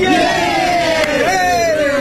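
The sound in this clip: Runners gathered for the start of the first Freeport Marathon cheer together with a loud, sustained crowd shout. Many voices merge into one wavering roar.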